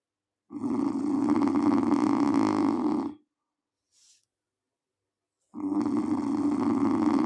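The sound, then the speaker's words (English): Loud, rasping snores from a person: two long, rough snores separated by a quiet pause with one faint, brief sound between them. “Apart from the elephant in the room that's snoring. If he snores one more time.”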